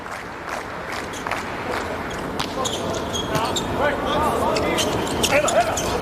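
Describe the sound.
Volleyball serve during a match, the ball struck with sharp, brief impacts over a constant background of crowd noise, with voices talking throughout.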